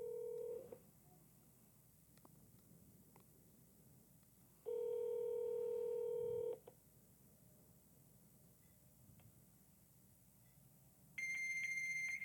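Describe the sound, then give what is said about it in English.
Phone-line tones from a call answered by a fax machine: a brief tone at the start, a steady two-second tone partway through, then a high, steady fax answer tone at the end. Faint line hiss fills the gaps between them. “Oh, it's a fax machine. Leave a fax. Dial in a fax. That's such a bummer that it's a fax number.”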